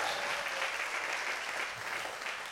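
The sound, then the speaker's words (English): A church audience at NOLA Church claps during an All In Sunday service. The applause is steady and fairly loud, a thick, even patter of many hands that fades slightly toward the end. “Come on, let's give Jesus another hand praise.”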